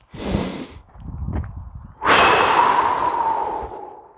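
A deep breath taken on cue in a group exercise: two shorter breathy puffs, then a long, loud rushing exhale that slowly fades, with no talk.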